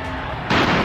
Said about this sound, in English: That sound you just heard was the sound of a tear gas fired by a police officer in an attempt to thwart this unruly demonstration.